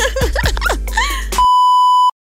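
A single steady mid-pitched electronic beep of under a second, loud and clean, cut off abruptly. Shorter, warbling vocal-like sounds come just before it.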